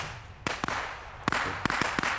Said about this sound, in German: nimm meine Kanone und schieß ein bisschen, damit die draußen bei guter Laune bleiben.